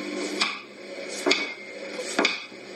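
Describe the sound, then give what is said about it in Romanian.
A knife cuts through an eggplant in a home kitchen during a simple fish recipe. Three sharp, evenly spaced chops strike the board about a second apart over a low steady background, with no talking. “Se curăță și se taie scrumbia și acum tăiem vânăta.”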